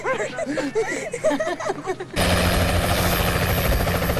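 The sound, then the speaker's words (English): A medical helicopter flies off, its broad, steady rotor-and-engine roar cutting in abruptly about halfway through with a low hum beneath it. People talk before the roar begins. “As the medical chopper leaves, Flynn to Claire.”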